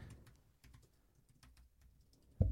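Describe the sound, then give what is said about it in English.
Fast, furious typing on a computer keyboard: many quick, faint key clicks in uneven bursts, ending with a louder thump. “Now people are just hearing us type furiously.”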